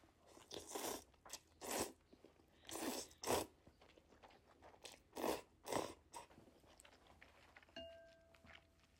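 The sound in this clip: Maruchan chilled packet noodles in a sesame-oil chicken sauce are slurped in several short, breathy bursts at an uneven pace. The bursts are faint, with quiet gaps between them and a brief steady tone near the end.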